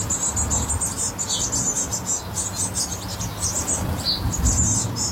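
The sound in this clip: Blue tit parents and nestlings call from a nest box while the parents bring caterpillars. Thin, high-pitched chirps and squeaks run almost continuously over a low, rumbling background.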